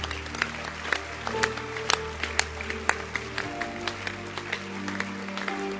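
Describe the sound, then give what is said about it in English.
A church audience claps during a service. Many sharp claps land at an even, steady pace throughout. “Oh, I like the way you are clapping. It means I can end the service. Oh, clap again.”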